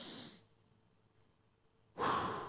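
A person inhales deeply twice, a breathy rush of air at the start and a louder, fuller intake at the end, with near silence between.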